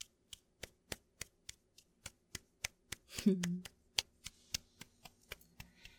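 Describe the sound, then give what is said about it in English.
Taps land in a long, even series of sharp, dry clicks at a quick regular pace, with one brief, louder low-pitched sound breaking in around the middle. “So, that was the sound of taps.”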